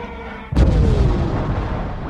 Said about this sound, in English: An explosion causes the ship to lose control.